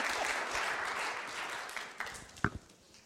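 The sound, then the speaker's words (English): Audience applause greets a speaker with a steady wash of clapping that fills the whole clip at an even level. A few sharper, louder claps stand out near the end as it begins to die down. “Would you put your hands together and really welcome this brother?”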